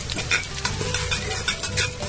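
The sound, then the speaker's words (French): Onions frying in a pan with chopped tomatoes as they are stirred: a steady sizzle with a regular series of scraping, stirring strokes over it, and no talk. “Nous allons les frire. Les oignons sont déjà frits. Nous allons ajouter les 2 tomates découpées.”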